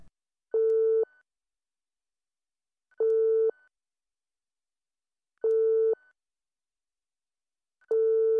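Telephone line tone while placing a call: four identical short mid-pitched beeps, evenly spaced with long silences between them, like a busy signal.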